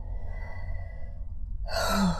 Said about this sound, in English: So, step one, stop and take a deep breath. Let's do that.